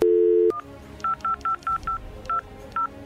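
Keypad tones dial a telephone number: a steady dial tone, then seven short, bright beeps in a quick, uneven sequence with brief pauses between, clear and loud with no voices.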